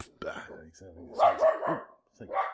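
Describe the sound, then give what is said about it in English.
A dog barking fiercely outside: several short, gruff barks mixed in with people talking. “So that's my dog is barking fiercely out there.”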